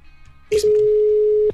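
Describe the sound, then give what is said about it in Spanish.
A telephone ringback tone heard while a call is being placed: a short click, then one steady, level, mid-pitched tone lasting about a second, with no voices. “ya está marcando”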